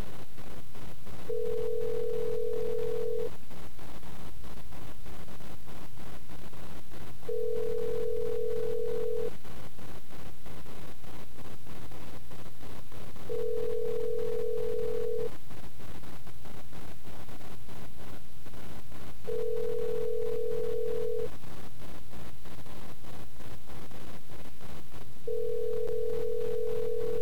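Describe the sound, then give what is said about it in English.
Ringback tone heard over the line while calling a payphone: five steady, mid-pitched tones, each about two seconds long, separated by roughly four-second pauses over a constant hiss, with no voices. “Somebody else standing next to the payphone. I know they can hear it.”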